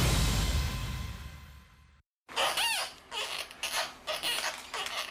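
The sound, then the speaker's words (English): High, squeaky squeals from a newborn giant panda cub, one of twins, during an examination at a zoo in Washington. Several quick bursts of chirping cries follow a short silence. “That's the sound of one of two newborn giant panda cubs being examined at the National Zoo here in Washington. No, it's not a squeezy toy.”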